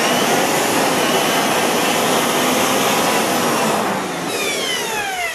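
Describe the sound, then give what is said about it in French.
An electric beater whirs as it mixes ceramic glaze for dipping a mug in a pottery workshop. The motor gives a loud, steady, broad roar that eases slightly near the end, with no talk. “pour mélanger les mailles, elle utilise un batteur”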